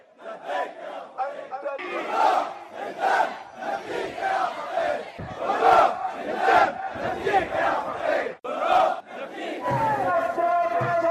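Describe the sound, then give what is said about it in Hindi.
Crowds marching toward Sheikh Isa Qassim's house in Bahrain chant slogans against the Al Khalifa regime. Loud, rhythmic bursts of massed voices repeat in waves, one chanted phrase after another. “शुक्रवार को लोगों ने बड़ी संख्या में शेख ईसा कासिम के घर की ओर मार्च किया और आले खलीफा शासन के खिलाफ नारे लगाए।”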